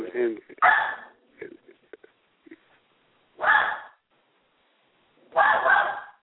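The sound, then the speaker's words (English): A dog barking at its own reflection: three loud, sharp barks spaced a few seconds apart, with faint small sounds between them. “My dog is barking at something, his own reflection.”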